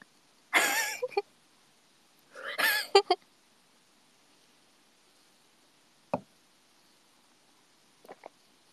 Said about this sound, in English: It's just a squeaky $20 chair, okay?